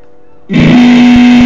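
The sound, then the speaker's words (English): Sound cranked up through a heavy distortion effect: after a brief quiet moment, a loud, buzzing sustained tone bursts in and holds steady, thick with gritty, saturated overtones. “Like that? That might be too much for distortion.”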